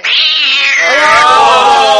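A loud cat yowl played as a sound effect: one continuous, drawn-out meowing wail lasting about two seconds, its pitch sliding steadily downward, with no voices over it.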